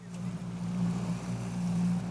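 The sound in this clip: A boat on water gives off a steady, low engine drone, a continuous humming tone with a faint wash of noise above it. It holds level throughout with no voices.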